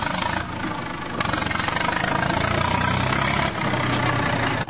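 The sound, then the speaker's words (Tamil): A JCB backhoe loader's engine runs loud and steady, a broad continuous diesel rumble with slight shifts in intensity throughout. “அந்த ஜேசிபிய start பண்ண சொல்லு.”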